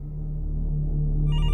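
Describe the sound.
A telephone rings as a police detective receives a call: a steady low tone holds throughout, and brighter ringing tones join near the end.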